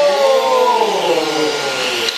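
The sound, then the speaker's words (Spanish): A vacuum cleaner runs with a loud, steady whirring hum and a high whine that drifts slightly lower in pitch, continuous throughout with no speech over it. “ahora sí vamos a encender la aspiradora”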